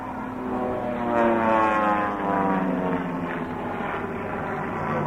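Formation of aerobatic display aircraft diving into a cloverleaf manoeuvre as their speed builds. A steady, harmonic engine drone swells slightly near the middle and then eases off. No voices are heard.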